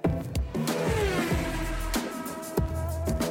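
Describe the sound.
Race cars finish a lap, engines whining and roaring as a few cars sweep past one after another, each pass a sharp rise in loudness over a continuous mechanical drone.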